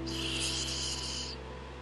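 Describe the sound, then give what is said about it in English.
A single deep breath drawn in through the nose during a guided relaxation exercise, a steady, airy hiss lasting just over a second before it cuts off, heard alone over a faint low hum with no talking. “We're gonna take some deep breaths in our nose”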